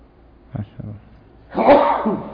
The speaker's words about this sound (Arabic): الحمد لله، يرحمك الله، يكرمكم الله.